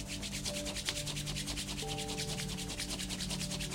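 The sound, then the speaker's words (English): Palms rub briskly together to build heat during a guided relaxation exercise, a soft, dry friction sound made of many rapid, even strokes that continue steadily and faintly for nearly four seconds. “And press back the palms together. Again, trying to create the heat for the second round.”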